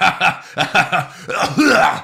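A bird in a played video makes cough-like sounds: several harsh, raspy bursts in quick, uneven rhythm, fairly loud and somewhat laugh-like.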